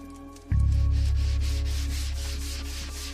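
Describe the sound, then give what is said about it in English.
Sanding a wooden window frame: a low, steady droning hum starts abruptly and carries on loud, overlaid by rhythmic rasping strokes of abrasive on wood, slowly easing off in level toward the end. “sands down a wooden window frame”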